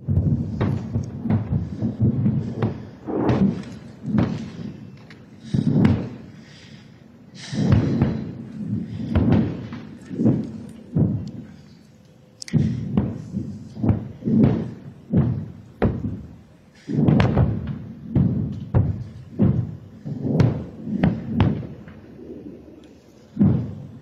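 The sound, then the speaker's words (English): Incoming rockets explode in a heavy barrage during the Israel–Hamas conflict. Many deep booms and thuds hit in quick, irregular succession, some overlapping, with low rumbling between the blasts. “Dozens of rockets coming in here. I don't know if you could get a sense, but sitting under this”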